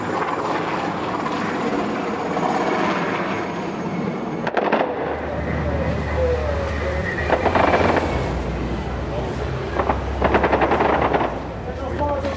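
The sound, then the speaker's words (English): Heavy gunfire erupts from all directions as soldiers evacuate foreigners from a residential area: many sharp, cracking shots and rapid bursts over a steady low engine rumble. “suddenly there's a lot of shooting. It's coming from all directions.”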